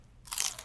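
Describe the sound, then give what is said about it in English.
A raw carrot stick gives one crisp crunch as it is bitten. The sound is brief and fairly faint, with quiet before it. “I'm going to have a carrot stick and maybe some celery.”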